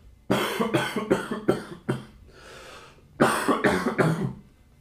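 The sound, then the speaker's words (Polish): A person coughs in two separate fits, each a quick run of several harsh, loud coughs, with a brief quiet pause between the bouts. “Zakaszlał krasnolud.”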